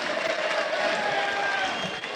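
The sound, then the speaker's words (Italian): A stadium crowd at a Parma football match applauding a player as he walks past the stand: a steady, broad roar of crowd noise with a thin, sustained tone running through it. “Gli applausi sono per McKennie, che sfila sotto la tribuna.”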